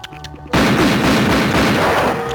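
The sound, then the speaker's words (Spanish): A cartoon hunter fires his gun: after a quiet moment, one sudden, loud gunshot blast rings out and stays loud and roaring to the end, with no talk over it. “Bien, Guanejo, sé que estás ahí. Si no sales en 10 segundos, te voy a disparar.”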